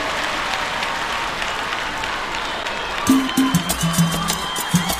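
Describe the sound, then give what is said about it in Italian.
An audience applauds, a dense, even patter of many hands that fills the opening seconds, with other tonal sounds joining as it continues. “Un applauso grande, eh?”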